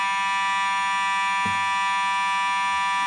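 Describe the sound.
An alarm blares without a break, a loud, harsh, steady buzzing tone that holds constant throughout, with a single dull thump partway through.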